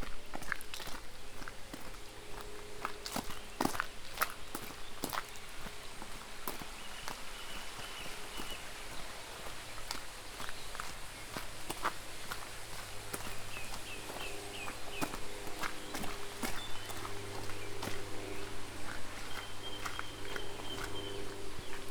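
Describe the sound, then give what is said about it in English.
Footsteps crossing a stream, with many irregular crunching steps and scuffs over a steady background rush throughout. “Just going to walk over Roncombe Stream.”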